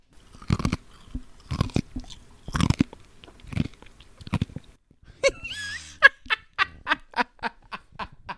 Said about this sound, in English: do ASMR of you chomping on the ice